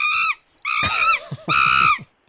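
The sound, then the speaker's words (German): Shrill screeching of a monkey, used as a sound effect in a matching memory game: three loud, harmonic squeals separated by short gaps, the middle one longer with a wavering, dropping tone. “Ein kreischender Affe.”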